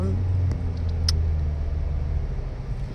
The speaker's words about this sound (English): hold on, I'm driving this morning and there is a lot of heavy traffic.